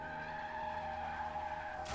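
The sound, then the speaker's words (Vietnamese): A car with failed brakes skids and rushes forward along a road toward a roadside kilometre marker: a steady, loud, tonal tire squeal holds throughout, then breaks into a sudden harsh noisy burst at the very end. “xe của hắn hình như là bị mất phanh. Nó cứ như vậy lao thẳng về phía trước.”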